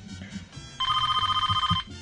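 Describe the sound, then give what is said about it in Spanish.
A telephone rings once in a fast, warbling electronic trill lasting about a second, loud and bright against a quiet low murmur before and after. “que suenen los teléfonos. No, pero las líneas están abiertas”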